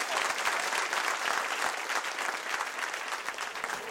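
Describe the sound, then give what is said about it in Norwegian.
An audience applauds the day's guest at a live event, a dense and steady wash of many hands clapping that holds at an even level from start to finish. “Nå vil jeg at jeg skal gi en stor applaus til dagens gjest”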